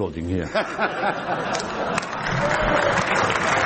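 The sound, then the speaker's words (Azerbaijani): Applause in a European Parliament session during a debate on Britain's exit from the European Union, a broad crackle building in the second half under a speaking voice. “Sizi burada sonuncu dəfə də alqışlayırlar”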